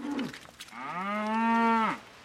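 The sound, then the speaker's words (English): A newborn bull calf, still wet and shivering, moos in a large shed at a dairy. It gives one drawn-out, fairly low bawl that holds steady and then drops away at the end. “He leads me to a large shed. Pointing down at a still wet, shivering calf, he grins. Yeah, little bull calf.”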